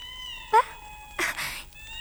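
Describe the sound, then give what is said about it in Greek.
An Angora cat gives one short, high meow, then a longer, harsher, raspy cry, set against a steady tonal background. “Η γάτα της Αγγύρας.”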